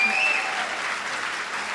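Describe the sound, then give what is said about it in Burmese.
Church audience applauding in praise during a Sunday sermon: a dense, steady patter of many clapping hands that holds at an even level throughout without a break. “အာမင်လက်ခုပ်တီးလက်ထိုးဘုရားကိုချီးမြှောက်ကြရအောင်”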